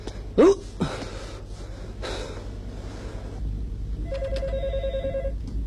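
A telephone bell rings in one trilled, buzzing burst near the end, after a sharp gasp and a breathy snort at the start and a stretch of low noise.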